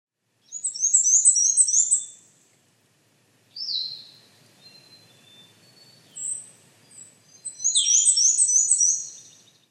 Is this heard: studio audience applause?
no